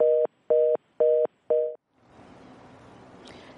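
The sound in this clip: A telephone busy tone sounds on a radio call-in line as a caller from Zimbabwe fails to connect: four evenly spaced steady beeps, then a low line hiss.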